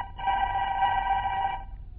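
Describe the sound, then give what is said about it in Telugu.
A telephone rings for a busy doctor: one steady, buzzing electronic ring lasting about a second and a half, then quiet. “బిజీగా ఉన్న ఓ doctor గారికి phone వస్తుంది.”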